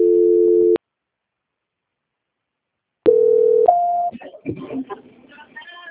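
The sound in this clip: Steady telephone line tones play while a call is being transferred. One tone is cut off, followed by a silent pause, then another tone that steps up in pitch before a voice begins speaking on the line.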